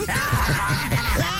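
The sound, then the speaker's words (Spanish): A harsh, shrieking yell is sustained loud and unbroken for about a second and a half, a distraught outburst over a rival's pregnancy, voiced in an acting exercise. “no necesariamente tienes que chillar”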